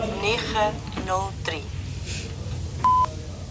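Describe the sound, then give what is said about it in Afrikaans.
A single short, steady, high-pitched beep marks the time signal of a radio talking clock. It follows a voice that speaks just before it. “Wanneer u die sein hoor, is dit 9:52 sekondes.”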